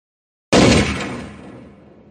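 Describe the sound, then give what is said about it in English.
A single gunshot from a gun fired at a target in the mountains cracks out as a sharp, loud bang. Its echo then rolls and fades away gradually over more than a second. “The shot was louder than I expected. And echoed through the mountains for almost 3 seconds.”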